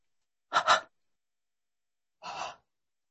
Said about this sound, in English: each of us now begin with a resurrection breath. And as we come into back to front, begin with a nice, gentle three-part inhale and three-part exhale.